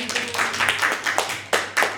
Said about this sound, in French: On peut s'applaudir, je trouve.